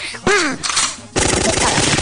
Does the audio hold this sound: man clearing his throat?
no